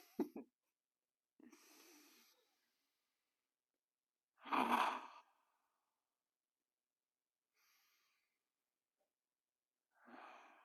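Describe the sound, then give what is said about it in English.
Deep breathing: a few slow, airy inhales and exhales with near-silent gaps between them. No talk is heard over them, and one breath in the middle stands out as louder than the others. “I'm going to take three deep breaths. Feel free to join me if you'd like.”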